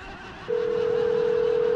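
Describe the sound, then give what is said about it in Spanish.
A telephone dial tone while a call is being dialed: a steady, loud single-pitched tone that starts abruptly and holds unbroken to the end. “Ya deja marcando. Tú me estás marcando a mí”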